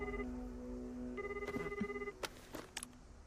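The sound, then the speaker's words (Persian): A telephone ringing: an electronic ringtone sounds briefly, pauses, then returns for a longer stretch, followed by a few sharp clicks and no voices. “آه فوشیگی رو با اولین زنگ جواب بده.”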